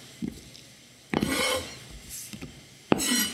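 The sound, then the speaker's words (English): Raspy scraping of poblano pepper seeds into a small bowl, a few short strokes separated by pauses, two of them louder and longer than the rest. “All right, so you're taking the seeds out, dumping them in our little bowl here.”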